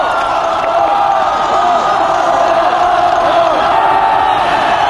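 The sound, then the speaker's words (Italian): A concert audience cheers and calls for an encore after the band leaves the stage, a dense and loud roar of shouts and whoops that holds steady throughout. “Sentite il pubblico come inneggia.”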